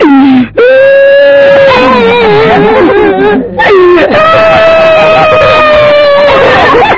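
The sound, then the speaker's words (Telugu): A schoolboy crying when asked to recite a poem in class: loud, drawn-out wailing and sobbing that breaks off briefly midway, then resumes just as strongly. “ఏం రా పద్యం చెప్పు అంటే ఏడుస్తున్నావు?”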